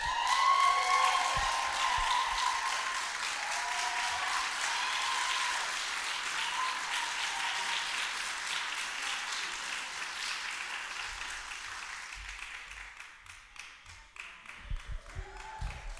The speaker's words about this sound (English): If you would, please put your hands together.